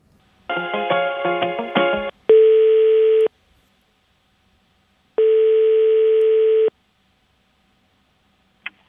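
Telephone dialing, then ringing tone on an outgoing call: a quick run of varied electronic dialing tones, then two long, steady ring tones separated by a silent pause, with a brief click at the very end.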